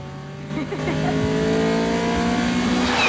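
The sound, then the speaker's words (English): A car speeds round a corner at high speed, its engine revving into a loud, sustained roar. The sound starts quieter and then swells and holds strong, with a throaty, tonal drone to the end. “Mia's car whizzes round a corner at high speed.”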